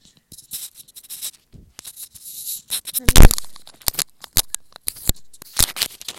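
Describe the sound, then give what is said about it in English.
Adhesive tape torn and handled while fixing a microphone in place: a series of sharp, crackly rips and clicks in an irregular rhythm, with one louder tearing burst near the middle. “The microphone is over here. Let me just... Can I tape it?”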